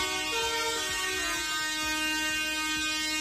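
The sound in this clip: Tractor horns blare at a street protest by farmers and livestock breeders in Burgos against the EU–Mercosur trade deal. Several overlapping horn tones sound together in a loud, sustained chord with no break and no talking.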